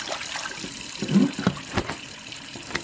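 A kitchen tap runs while dishes are washed up, a low, fairly faint stream of water broken by a few soft splashes and knocks.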